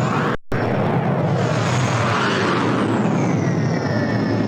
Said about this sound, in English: I need to get better airport sounds because someone was messaging me saying, why do I keep playing the rocket sound? Like a bomb was going, like, you know, like a missile.